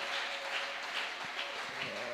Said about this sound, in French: Est-ce que tu peux acclamer pour ton frère?